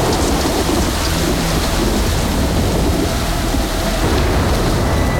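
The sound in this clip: Heavy rain pours steadily outside a hotel, a dense, unbroken hiss with a low rumble beneath it throughout.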